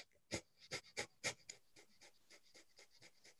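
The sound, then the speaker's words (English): Breath of fire: a person does rapid, rhythmic breathing with many quick, forceful, breathy exhales in a steady pulse. The first few puffs are loud, and the later ones grow softer. “if you do that for an entire minute, that's called the breath of fire, that's totally going to change the way you feel.”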